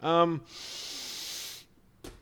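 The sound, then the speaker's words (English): A deep breath follows a short spoken sound, a single breathy, hissing intake lasting about a second, steady in loudness, before a voice briefly returns. “I took such a deep breath.”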